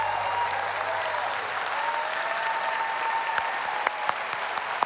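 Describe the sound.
Standing audience applauding to welcome a speaker to the stage: continuous, even clapping from many people at moderate level, with a few sharper individual claps standing out near the end.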